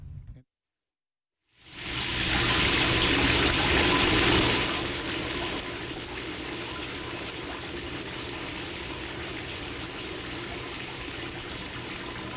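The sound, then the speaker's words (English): Water churning in a jacuzzi: after a brief silence a loud, steady rushing and bubbling wash starts, eases slightly after a few seconds, then holds constant to the end with no voices. “Yeah, we in that jacuzzi. We loving it. It's a good day. It's very nice.”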